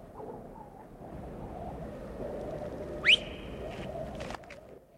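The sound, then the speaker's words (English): A person gives a single short whistle that sweeps quickly upward and then holds a flat note for a moment, standing out sharply above a low, steady background rumble. “whistles”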